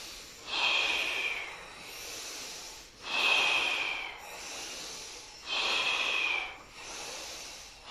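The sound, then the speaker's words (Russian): Forceful candle-blowing breaths from a belly-driven kriya meditation exercise: three loud, airy rushes alternate with softer breaths in a steady, even rhythm, with no talking. “Задувание свечи, вдох. Мощнее вдох.”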